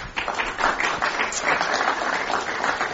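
Audience applause welcomes a panel of newspaper and wire-service reporters at a Climate One event, a dense, steady wash of many hands clapping at an even level throughout.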